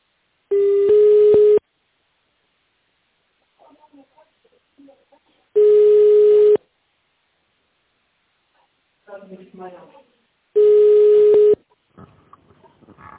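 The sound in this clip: Three steady ringback tones sound while a phone call is transferred to an operator. Each tone lasts about a second, with long even gaps between them that hold only faint, muffled sounds.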